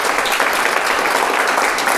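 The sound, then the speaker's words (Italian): Applause for teachers: a steady, dense wash of clapping from many hands runs loud and unbroken for the whole stretch, with no talk over it. “Ha ragione, facciamo un applauso a questi insegnanti”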